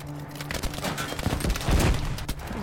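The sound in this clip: Gunfire from the video game Battlefield V: a dense, continuous spray of rapid automatic shots in overlapping bursts, loud and sustained throughout, with no talking.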